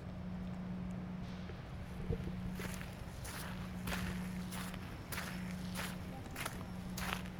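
Footsteps of people walking outdoors through an industrial area near a cast-iron gate, a steady rhythm of many soft, gritty steps over a low constant hum.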